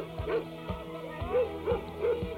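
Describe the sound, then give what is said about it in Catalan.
A dog barks in a quick series of short, sharp yaps at a fairly even rhythm. The barks are moderately loud over a steady background, with no talking. “El gos!”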